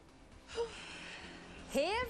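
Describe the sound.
A long, soft breath is drawn in, ending in a short voiced gasp that rises in pitch; all of it is quiet.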